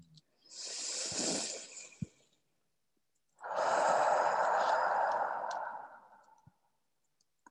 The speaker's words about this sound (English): I invite us all to take a deep breath.